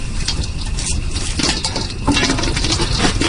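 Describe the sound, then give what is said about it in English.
Popcorn popping in a pot over an open fire gives many quick, sharp pops and crackles, scattered at first and then thicker and louder in the second half. “Wow, popcorn on a real fire.”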